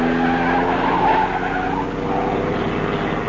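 Tires squeal as a car skids around a corner during a chase, a loud, continuous screech layered over engine roar that holds steady for about three seconds with no talk.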